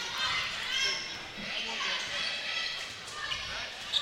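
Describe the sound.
A basketball being dribbled during a high school game, with several bounces heard against ongoing gym crowd noise and faint voices.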